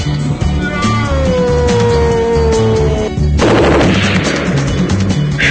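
Video game gunfire marking a headshot: a sudden loud, noisy burst breaks in partway through and continues to the end, over a steady pulsing low rhythm, with a few sustained higher tones before it.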